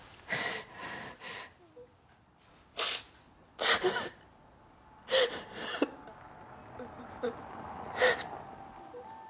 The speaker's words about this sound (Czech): Proč brečíš?